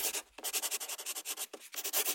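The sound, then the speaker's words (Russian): A soft pencil drawing on paper, a steady run of many short scratchy strokes in an even rhythm, with one longer pause and a brief break near the end. “Ну, смотри, какой приятный звук у меня. Это потому, что у тебя мягкий карандаш.”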